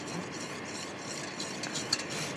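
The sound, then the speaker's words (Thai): Ingredients are stirred in water until they dissolve into a gel, a steady swishing, scraping churn at an even level, with a single brief clink near the end. “เอามาใส่กับน้ำนะ ค่ะ คนไปสักครู่นึงเขาก็ละลายเองเนาะเขาก็ละลายเองเขาก็พอเขาสุกเขาก็ละลายเป็นเนื้อเจลเองนะคะ”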